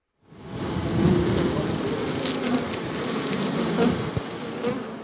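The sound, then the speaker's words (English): Honeybees buzzing at two small wooden hives of over 20,000 bees on a green roof covered with soil and plants in Washington, D.C., forming a dense, steady droning hum with occasional louder passing buzzes. “Our so-called green roof, covered with soil and plants, as of yesterday, houses two small wooden hives with over 20,000 bees.”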